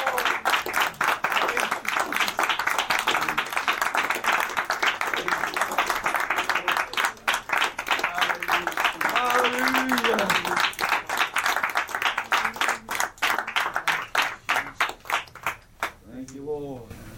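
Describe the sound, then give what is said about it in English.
Congregation clapping during praise and worship: fast, even, rhythmic claps that keep going throughout, with voices heard over the beat. “clap praise and worship. Thank you, Lord.”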